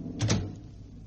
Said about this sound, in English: Then, for heaven's sake, shut the door.